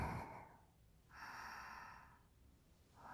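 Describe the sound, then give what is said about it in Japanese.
A deep breath is drawn in through the nose, a soft, airy hiss lasting about a second. Fainter breath noise comes at the start and at the end. “鼻から大きく息を吸って”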